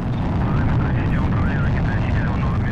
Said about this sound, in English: Liftoff. Liftoff of the Soyuz TMA-05M carrying Sonny Williams, Yuri Malenchenko, and Aki Hoshide on a two-day journey to the International Space Station.